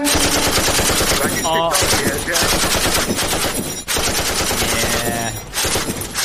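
Loud, sustained machine-gun fire emptying a full magazine, rapid shots packed densely together over about six seconds with only a brief dip in the middle.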